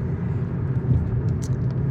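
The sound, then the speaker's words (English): Steady low road rumble and engine drone inside a car driving through light traffic, a continuous even roar with no voices. “A little bit of traffic today.”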